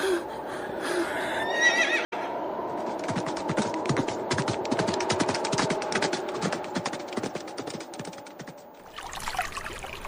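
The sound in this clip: A horse whinnies beside a river among soldiers. The loud neigh sits over a dense, continuous run of sharp clicks and clatter that lasts nearly ten seconds, with one abrupt break near the start.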